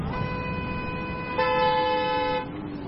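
Car horns honking in a traffic jam: one sustained horn is soon joined by a second, louder horn, and the layered honking then drops back to a single lower tone. No voices are heard.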